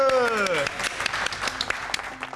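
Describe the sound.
Applause and hand clapping follow the showing of a child's artwork: a dense, steady patter of claps runs throughout, with a voice audible at the start and speech over parts of it.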